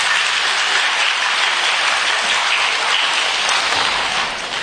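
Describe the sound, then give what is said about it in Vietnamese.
Applause from an audience in a school hall in San Jose, California, follows a Buddhist dharma talk. It is a dense, continuous clatter of many clapping hands that holds steady and thins slightly near the end, with no voices. “Rồi quý vị cho một tràng pháo tay đi.”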